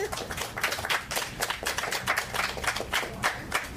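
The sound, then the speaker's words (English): Audience applause after a poetry reading at an art festival: dense, steady clapping from many hands runs through the whole clip at moderate loudness, with no voices. “Let's give her another hand.”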